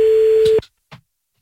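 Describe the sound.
A steady, flat telephone line tone plays while a call is being placed back to someone. It cuts off abruptly, then a brief faint click follows before silence.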